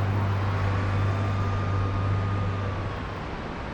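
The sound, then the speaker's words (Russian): Zhiguli cars driving along a city road give a continuous engine drone with a strong low hum, holding steady before easing off slightly at the end. “Городская дорога, по которой едут «Жигули».”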